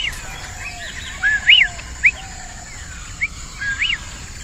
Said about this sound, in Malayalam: അതെന്ത് പക്ഷിയാ?